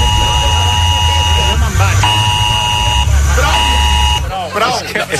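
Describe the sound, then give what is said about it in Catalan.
An alarm blares with a steady, buzzing harmonic tone in a few long pulses separated by short breaks. People talk over it, and the tone stops just before the end. “És que aquesta alarma invalida totes les zones sonores que hi hagi al voltant.”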